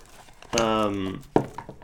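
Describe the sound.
Plastic wrapping crackles as someone opens a pack of little game cards. A drawn-out voiced sound comes first, then a short, sharp crinkle.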